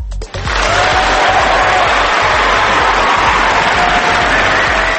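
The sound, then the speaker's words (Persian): Audience applause for a poet's recital begins after a brief pause, then runs as loud, continuous clapping with some cheering mixed in. “خیلی شعر قشنگی گفتین، آفرین، لطفا تشویقشون کنی. بله خیلی ممنونم، بله دوباره تشویقشون کنی چون شعر قشنگی بود واقعا.”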